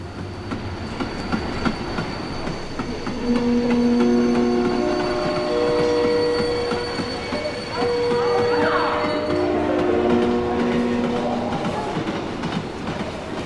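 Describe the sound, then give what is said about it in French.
A train arrives at a station with loud, continuous rumbling and clattering wheels, overlaid by sustained squealing tones that rise and fade as it slows. “Le train arrive à la gare quand je rentre dans le train, je sens une atmosphère pas très rassurante.”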